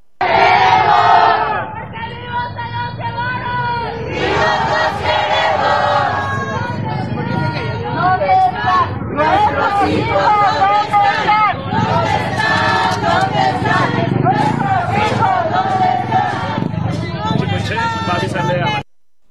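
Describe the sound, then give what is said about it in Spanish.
A protest march crowd of search collectives for the disappeared chants loudly in unison on Calzada de Tlalpan, with repeated rhythmic bursts of many voices continuing for most of the stretch before ending abruptly. “¿Dónde están? Es lo que señalaron colectivos de búsqueda que continúan su marcha sobre la calzada de Tlalpan para visibilizar la crisis de desapariciones en el marco de la inauguración del Mundial.”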